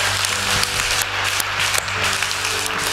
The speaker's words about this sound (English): Let's give everybody a hand clap.